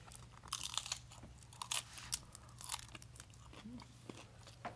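Crunching and chewing on a chip: many crisp, irregular bites and crunches, fairly quiet, over a faint steady low hum.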